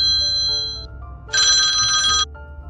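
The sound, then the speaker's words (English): A mobile phone rings while someone is driving, a steady electronic ringtone that swells into a louder, buzzier burst midway before settling back, all over a low rumble. “my apologies for the ringing phone sound, but as I always say, one of the dangers of doing a podcast from your cell phone while driving, you have the danger of someone calling in and interrupting your podcast.”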